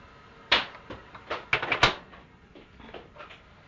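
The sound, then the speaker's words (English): A bench is pulled out across the floor, making a sharp wooden knock followed by a tight cluster of scrapes and knocks, then a few fainter bumps as it settles. “Right, Stacey, sit down. Pull the bench out, please.”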